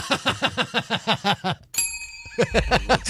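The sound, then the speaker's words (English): Two bells struck at once on a radio show make one bright metallic ding with sustained ringing overtones that fades over about half a second, with rhythmic pulsing sounds before and after. “you got a simultaneous double bell right there, by the way”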